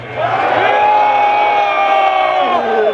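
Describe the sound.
Concert crowd cheering and shouting in a loud, sustained roar of many voices that rises quickly, holds for about three seconds, and tails off at the end.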